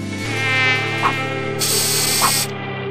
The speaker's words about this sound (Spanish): Soy el mosquito del dengue, vengo a aterrorizarlo.